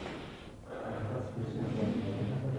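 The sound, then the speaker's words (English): A person breathing, a soft, airy breath sound with a faint nasal, snort-like edge, low in level and steady over a few seconds. “What am I doing now? I am breathing.”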